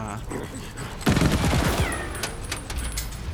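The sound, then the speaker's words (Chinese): A video-game shotgun fires rapidly like a machine gun: a dense burst of many quick shots breaks in abruptly, then the firing carries on more loosely. “我明明有啲散弹嘅，射到好似机枪咁”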